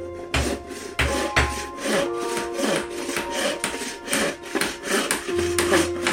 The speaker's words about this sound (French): Noé coupe des planches de bois et les cloue solidement pour fabriquer un bateau gigantesque.